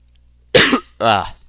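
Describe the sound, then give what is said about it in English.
Two short, harsh coughs, the second more voiced and throaty than the first, heard alone with no talk around them. “really lacking on the cough button here, I'm sorry.”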